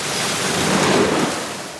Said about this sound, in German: Spargelvorwäsche in Gang. Das macht ordentlich Lärm, aber muss sein, weil das muss gut gewaschen werden und die Pumpen laufen